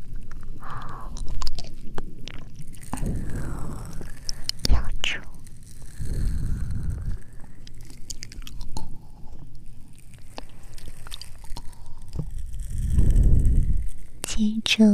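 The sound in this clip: Wet chewing and biting of a predator slowly chewing paralyzed prey with its teeth, a series of squishy, crunching bursts at an uneven pace, with a soft voice talking over them.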